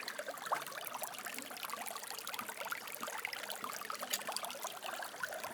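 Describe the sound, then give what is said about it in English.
Water runs through an old, ancient stone drainage channel in Montségur, France, making a steady, faint trickling and babbling with no pauses. “This is water running in Montségur, France.”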